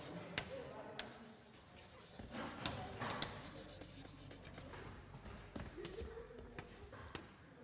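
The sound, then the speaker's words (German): Scratchy strokes and light taps of writing on a board during a lecture on linearizing transformations, faint and irregular, with occasional rubbing and knocks scattered across the passage. “Ich schreibe noch mal ganz kurz an, was letztes Mal zum Schluss dran war.”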